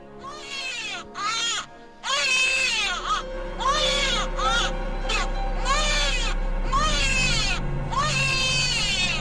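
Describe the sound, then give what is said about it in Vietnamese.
A newborn baby crying in a series of piercing, high wails, each a sharp burst that swells and wavers in pitch, separated by brief catches of breath and continuing without pause toward the end. “Vậy là cứ mỗi đêm đúng 12 giờ lúc niệm bùa, lại có tiếng trẻ sơ sinh khóc vang lên đến buốt lòng.”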